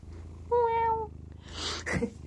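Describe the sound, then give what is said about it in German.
A cat lets out a single drawn-out, even meow, then a short soft breathy burst, with a faint low purr running beneath. “Ich kann mir vorstellen, dass so eine schnurrende Katze auch ein sehr gutes Einschlafmittel ist.”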